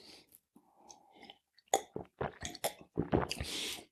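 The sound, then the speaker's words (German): Chewing a small piece of bread: quiet, soft mouth sounds at first, then a run of sharper crunchy, moist bites in an irregular rhythm. “Dann nehme ich auch nochmal ein Stückchen Brot.”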